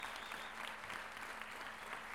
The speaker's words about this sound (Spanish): Un gran aplauso para todos mis hermanos, mis compañeros de trabajo y de labor.